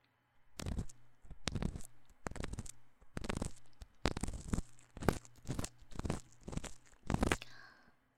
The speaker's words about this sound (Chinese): 不许起来，我的棉棒还在你耳朵里呢，很危险的。